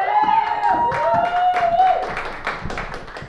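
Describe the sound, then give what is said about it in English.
An audience at a live show claps and cheers to welcome a guest, with loud, dense clapping and a sustained high cheer above it. “Let's give it up for Amy Bogard.”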